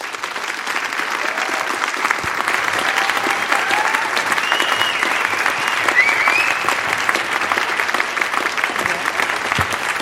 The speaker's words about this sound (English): Please give her a warm welcome to the stage of the Fitzgerald Theater.